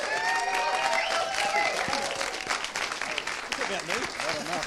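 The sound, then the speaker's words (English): An audience applauds as a speaker is welcomed to the stage at a church gathering, with sustained, full clapping at even strength that thins slightly toward the end while voices carry on underneath. “Come on, give him a hand.”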